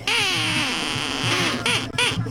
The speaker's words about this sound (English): The common is a sea of yellow with a symphony of quacks as thousands turn out for the annual Mother's Day Duckling Day parade.